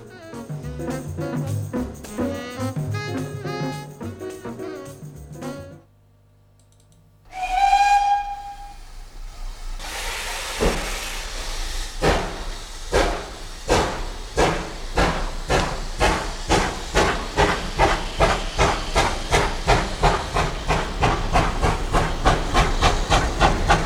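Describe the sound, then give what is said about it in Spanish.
A steam train's whistle sounds in one short blast, followed by loud hissing steam and a long run of steady, rhythmic chuffs that carry on to the end. “nos vamos a subir al tren. ¿Qué pitará?”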